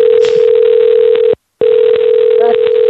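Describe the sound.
A crackling, ringing electronic tone, like a telephone line, holds steady over faint crackle, cuts out once for a brief silence midway, then resumes.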